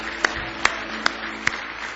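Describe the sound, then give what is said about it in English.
Hand claps of praise to Jesus during a church service, four sharp claps evenly spaced in a steady rhythm over a low background hum. “Give Jesus one more big hand clap of praise.”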